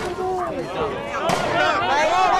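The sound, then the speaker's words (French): A tear gas grenade exploding at a street protest as police charge the tail of the march: one sharp bang lands midway through, amid continuous shouting and raised voices. “Explosion. La police charge la queue de cortège. Tire de grenades lacrymo. Des nuages de gaz se forment.”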